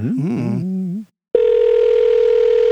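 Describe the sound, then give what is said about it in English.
A steady telephone dial tone sounds while a listener is being called back. It follows a brief warbling tonal sound and a short silence, then holds as one unbroken, even hum to the end. “We're going to call this guy back, right? Oh, a call from the ziggurat.”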